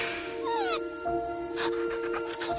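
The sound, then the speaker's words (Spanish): A puppy whimpers in thin, high-pitched whines, some drawn out and one sweeping upward, quiet and alone with no voices. “Frente a ella hay un cachorro.”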